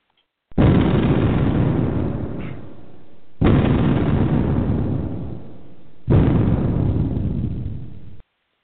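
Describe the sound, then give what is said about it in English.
A house explodes into fire and smoke at early nightfall: three loud, sudden booming blasts, each followed by a long roaring rumble that slowly fades before the next one hits. “Seconds later, the house explodes, sending a plume of fire and smoke into the early night sky.”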